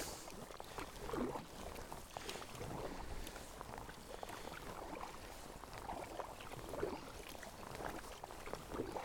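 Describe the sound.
A kayak paddle dips and strokes through the water along the wooded coast of Skye, making soft, regular splashes and swishes with faint wind noise in between.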